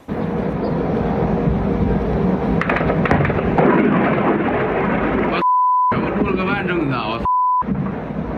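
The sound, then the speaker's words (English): An explosion at an oil refinery near Moscow after a drone strike comes through as a broad, rumbling roar with a few sharp bursts. People talk over it, and two flat electronic bleeps cut in near the end. “But this key oil refinery, less than 10 miles from the Kremlin, was damaged with the roof of one structure blown clean off. Watch this.”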